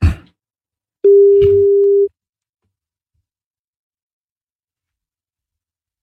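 A telephone ringback tone plays while calling someone: one steady mid-pitched beep lasting about a second, followed by a long silence, with the next beep just beginning at the very end. A short burst of noise comes before the first beep.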